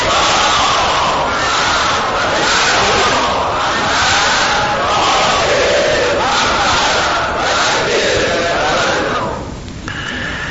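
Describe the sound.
A large crowd chants the salawat prayer loudly in unison, a dense roar of many voices that holds steady and then eases off near the end.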